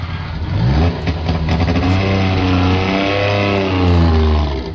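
A Polish-built Syrena car's engine revs loudly, a strong buzzing, harmonic note that holds steady with slight pitch shifts throughout.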